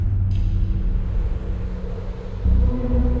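Low, steady rumble of a car being driven with two people inside, a continuous deep engine and road drone that swells slightly louder toward the end.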